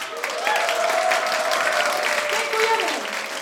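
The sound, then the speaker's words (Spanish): Applause during a casual retro video game trivia session, a dense, even wash of clapping lasting throughout, with a voice sounding over it. “Gracias, gracias público, aplaudidme. Voy a aplaudir al pobre mozo que se lo ha currado un montón”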